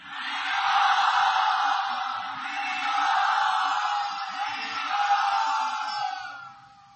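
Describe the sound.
A crowd cheers and whoops enthusiastically to welcome a speaker at an evening event in Mumbai. The roar swells and holds in broad waves for several seconds, then fades out at the end.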